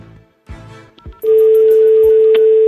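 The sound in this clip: A telephone number being dialed live: a few short clicks and brief tones, then a loud, steady continuous line tone with faint high pips over it.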